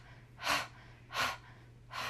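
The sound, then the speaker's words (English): Breathing exercise breaths: three short, forceful breath bursts in an even rhythm, soft and airy over a faint low hum. “and inhale, and exhale, go ha, ha, ha, inhale, and exhale”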